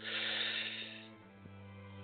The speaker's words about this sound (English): Let's inhale. Now exhale slowly. One more time. Inhale.